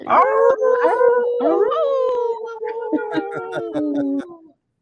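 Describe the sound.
Several people howl together like wolves, their voices overlapping in long, wavering tones that rise and then hold. The howling is loud and breaks into short yips before stopping abruptly.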